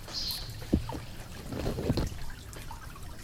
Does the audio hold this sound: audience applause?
no